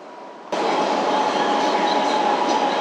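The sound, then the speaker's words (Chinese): A subway train arriving at a station: a loud, steady rumble of rolling cars starts abruptly after a moment of quieter hum, with a sustained whining tone running through it and no voices. “苏庄站到了。 We are arriving at 苏庄 Station.”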